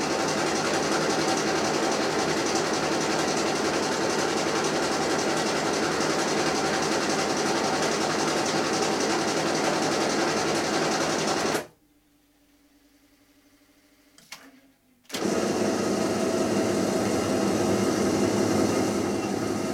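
A printing machine running in a print shop gives a loud, steady, dense mechanical clatter that stops for about three seconds near the end, leaving near silence, then starts again at full strength.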